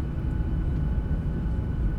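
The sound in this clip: Steady, heavy low-pitched roar inside an airplane descending for landing, a dense, unbroken drone that holds at an even level throughout, with no voices.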